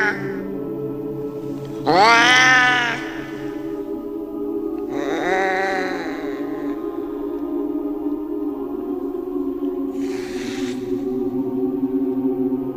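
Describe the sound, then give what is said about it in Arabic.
Cats meow and yowl from inside a bag: three drawn-out wailing cries with bending pitch, the first loudest, over a steady low drone. “الصرخات اتحولت وبدأت الشنطة طالع منها صوت القطط اللي يخوف اللي أنا ما بحبوش”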